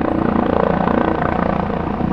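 A helicopter flies overhead, its rotor chopping in rapid, even beats under a loud, dense engine roar that holds steady throughout.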